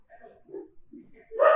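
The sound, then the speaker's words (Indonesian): A dog barks near a boarding house: one sharp, loud bark bursts out at the very end after a stretch of faint, scattered murmuring sounds. “biasanya dia gonggong sampai ada salah satu dari penghuni kos yang keluar. Mungkin kayaknya masuk ke mic kali ya suara anjingnya ya.”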